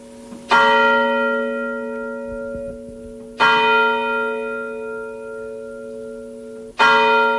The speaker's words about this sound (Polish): Ale my mamy Anioł Pański. Jeszcze dzwonią te dzwony.